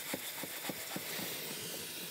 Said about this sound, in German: Magst du mal einmal das Waschbecken ziemlich füllen?